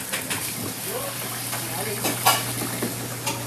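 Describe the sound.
Potato pancakes made with potatoes, salt and pepper fry in sunflower oil in a restaurant kitchen during the lunch rush, a steady crackling sizzle with a few scraping stirs and sharper pops.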